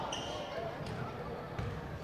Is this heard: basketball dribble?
yes